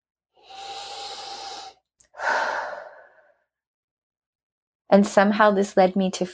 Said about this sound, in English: Big deep breath.